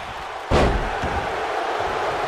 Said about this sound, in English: Huge power slam. Goes for the pin.